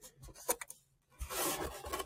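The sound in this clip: Material being cut by hand for a craft project: faint, quick snipping and scratching sounds, then a sustained rasping scrape lasting about a second.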